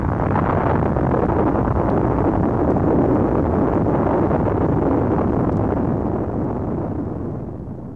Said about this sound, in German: es hat sich hier gerade eine furchtbare Explosion ereignet.